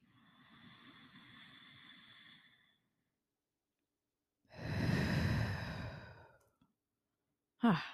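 Deep breaths during a guided breathing exercise: a long, soft, airy breath, then after a pause a louder, sighing exhale, and finally a short breathy burst.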